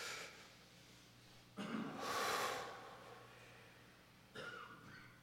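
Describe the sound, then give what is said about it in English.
An audience takes a deep breath together, making a soft, rushing group inhale that swells and then stops. A shorter, quieter rush of breath follows a couple of seconds later. “Everybody take a deep breath. Hold it in for a second.”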